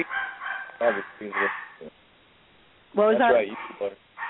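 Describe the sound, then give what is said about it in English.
A dog barks in short, sharp bursts while a person talks over it, the barks rising clearly above the voice in places. “Whoever dog that is barking. That's my dog.”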